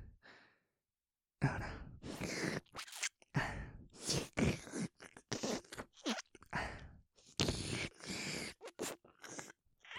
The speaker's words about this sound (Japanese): いっぱい舐めてあげるから。